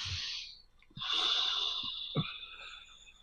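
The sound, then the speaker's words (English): Audible breathing during a guided group breathing exercise. A short breath is followed by a pause and then a long, airy breath lasting over two seconds, with a few soft clicks. “Take a breath, everybody.”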